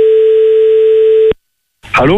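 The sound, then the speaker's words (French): A single steady telephone ringing tone sounds for about a second while a restaurant in Bastia is being called. It cuts off into silence, and then a voice starts speaking. “Eh bien, c'est parti, les amis. On appelle à Bastia.”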